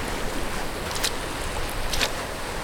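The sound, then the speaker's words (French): Waves wash on the beach at Pénestin in Morbihan, Brittany, at falling tide: a steady, loud, hissing surge with no clear breaks, and two brief brighter splashes near the middle and end. “Je marche sur la plage de Pénétin, dans le Morbihan, en Bretagne.”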